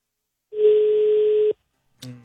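Telephone ringback tone on an unanswered call: one steady, low, level tone lasting about a second, then a short silence before another brief burst of sound begins.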